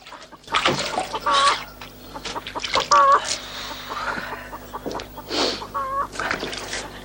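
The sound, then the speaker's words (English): Chickens cluck in a farmyard beside a barn, giving several separate bursts of clucking with short gaps between them and a low steady hum underneath. “Fletch treads cautiously through a farmyard and into a barn where Godber's”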